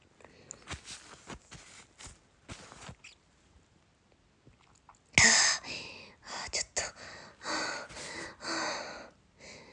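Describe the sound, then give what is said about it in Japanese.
Heavy panting from a person out of breath: quiet, breathy exhalations at first, then a run of loud, rough gasping breaths through the second half, steady and rhythmic. “息が上がってる。”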